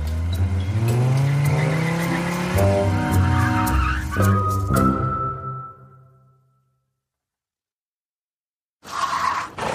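Car driving fast with tires squealing, a loud roaring engine under high-pitched skidding whines that fade away into silence, before a brief loud burst of noise returns at the very end.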